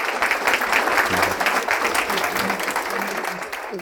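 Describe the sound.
Applause from an audience welcoming a Monsignor back as speaker, a steady wash of many hands clapping at even strength that eases off slightly toward the end.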